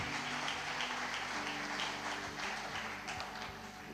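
A church audience applauds in praise of the Lord during a sermon. Faint, continuous clapping forms a steady wash of noise that thins slightly toward the end.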